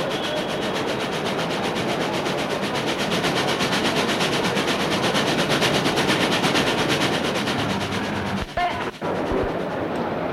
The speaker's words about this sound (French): Le train arrive. Le bruit les surprend.